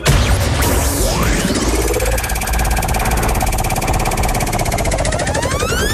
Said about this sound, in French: Je vous invite à tourner la roue, pour ça vous dites le mot top